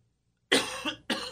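A cough and throat clearing: a harsh cough burst followed by a couple of quick, rough throat-clearing rasps, loud and close together, heard alone after a silent moment.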